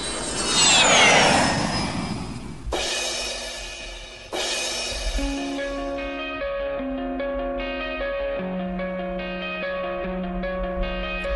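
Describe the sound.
An airplane sound effect used as a segment transition: a loud, sweeping jet-engine roar that swells and fades in the first few seconds, then gives way to music.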